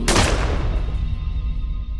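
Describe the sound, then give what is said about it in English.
A single sharp pistol gunshot cracks at the very start, then decays into a rumbling, ringing tail that fades over the following two seconds. “So the lead hijacker grabbed 24-year-old Tamar, pointed his pistol at her head, and pulled the trigger.”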